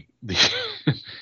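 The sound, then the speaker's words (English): Choking coughs and throat clearing from a man after mead went down the wrong pipe: a strained, voiced gasping hack followed by a sharp, louder cough burst and a fainter rasp, heard alone. “Excuse me. I tried drinking some mead and got some down the wrong pipe there.”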